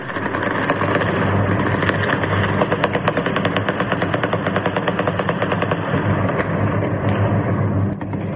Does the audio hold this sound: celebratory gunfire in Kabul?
yes